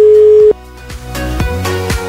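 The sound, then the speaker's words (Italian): Ringback tone of an outgoing phone call to a radio listener: a single steady tone lasting about half a second, then cut off and followed by music with regular low beats. “Vediamo, proviamo. Suona libero, vediamo se ci risponde.”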